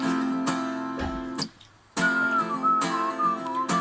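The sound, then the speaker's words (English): A person whistles a wavering, tuneful line that carries for about two seconds after a brief quiet gap. Steady sustained tones and a few sharp accents sit underneath. “A little whistling, huh?”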